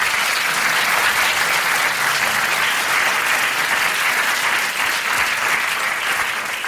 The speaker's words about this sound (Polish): Myślę, że to też jest miejsce na oklaski.